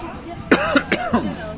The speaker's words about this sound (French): c'est à mon avis, c'est le Perrier qui fait tousser